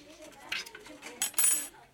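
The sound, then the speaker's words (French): A knife cuts a small piece of potato, giving a few soft, short clicks and scrapes, with a brighter clinking burst near the end, like a blade against a hard surface. “On va essayer de couper un petit morceau proprement de pomme de terre.”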